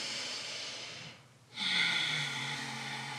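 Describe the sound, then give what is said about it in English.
Audible breathing in and out as deliberate deep breaths, heard as airy, breathy rushes of air. One breath stops briefly near the middle, and then a louder breath follows. No one speaks. “make audible noise when you're breathing in and out”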